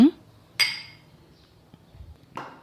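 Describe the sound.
Glasses of a mixed vodka cocktail clink in a toast on a summer day: two bright, ringing clinks separated by a quiet gap, each chime fading quickly.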